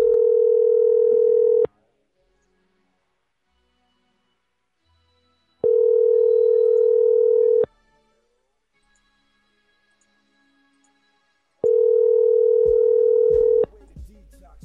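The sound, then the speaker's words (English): Telephone ringback tone on an outgoing call: three steady, buzzing tones of about two seconds each, separated by roughly four seconds of silence, loud and alone. “So we're from Walmart, and we're calling Lucas.”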